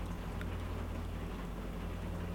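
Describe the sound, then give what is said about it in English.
Rain falls in a steady, even hiss with a faint low hum beneath it, holding at the same level throughout. “Rain falls,”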